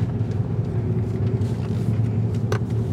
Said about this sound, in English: We're driving over the Berkeley Hills and turning left at San Pablo Dam Road.